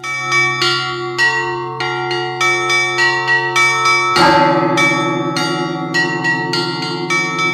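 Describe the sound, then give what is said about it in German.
Russian Orthodox monastery bells in Finland, rung by a monk in the belfry who pulls the mechanisms with hands and feet: quick rhythmic peals of smaller bright bells ring over a sustained low drone, with a heavy deep bell stroke joining midway. “ein Mönch ist da im Glockenturm und der spannt sich irgendwie in so ein Gestell ein und zieht mit Händen und Füßen da diese Mechanismen, um die Glocken in Bewegung zu setzen.”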